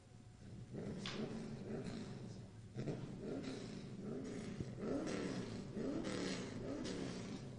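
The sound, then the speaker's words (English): Race car engine from the Sportsman Division at a speedway, readying for a timed qualifying lap, rumbles and revs in a loud, steady growl that surges and eases repeatedly throughout. “that sound you hear is Gerald Hicks, the current points leader here at Eastbound International Speedway in the Sportsman Division, as he gets set to take his hot time.”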